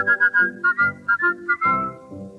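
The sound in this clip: Someone whistles a tune in a clear, bright tone on an older German vocal-group recording. The melody is a run of short, detached notes that settles onto a longer held note, lower in pitch, at the end.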